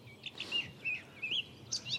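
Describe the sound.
Bird song in a field at La Chaux, Saint-Bonnet-le-Courreau, in April, recorded with a parabolic microphone: several short, high chirps in quick succession over a faint, quiet background.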